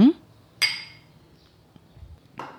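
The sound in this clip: Glasses of a mixed vodka drink clink in a toast on a summer day, giving a few sharp, bright clinks with ringing tails separated by short quiet gaps.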